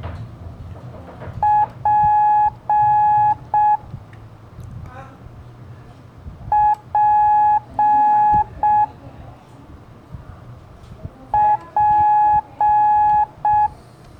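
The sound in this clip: Morse code for the letter P, dot-dash-dash-dot, beeps out three times as steady, clear mid-pitched tones. Each group has a short beep, two long ones and a closing short beep, separated by pauses over a low background hiss.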